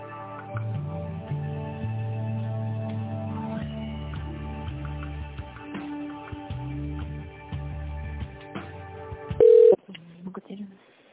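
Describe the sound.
Telephone line tones sound during a call transfer. Steady electronic tones run throughout, and a short, loud beep stands out near the end.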